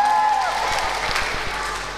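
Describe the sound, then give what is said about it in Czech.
Applause from an audience after a Czech folk song, a steady wash of many hands clapping that holds fairly loud and slowly tapers off. “Tleskejte si všichni. Děkujeme.”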